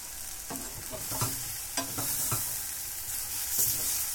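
Food sizzles and spits steadily in a hot frying pan as it is stirred and tossed, with several sharp clacks and scrapes rising over the continuous hiss.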